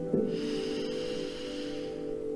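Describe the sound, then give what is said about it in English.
A slow, deep inhale during a guided prayer: a soft, airy draw of breath that starts with a brief nasal catch, heard over a steady sustained musical tone. “we'll begin this prayer by just noticing our breath. Inhale.”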